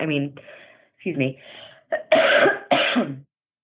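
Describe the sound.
Two harsh coughs from a tickle in the throat, short loud bursts close together that follow a few moments of talk, then silence.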